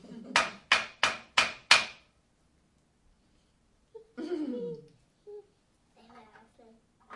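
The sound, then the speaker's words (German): Hammering: five sharp, evenly spaced blows ring out in quick succession. Silence follows, then a few brief stretches of speech. “Ja, ich muss ein bisschen hammern. Ich muss nämlich hammern.”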